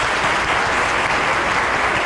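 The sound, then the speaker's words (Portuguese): An audience applauds a woman's 91st birthday with dense, even clapping that holds at a steady loudness for the whole clip, and no one talks. “Glória a Deus, vamos dar uma salva de palmas.”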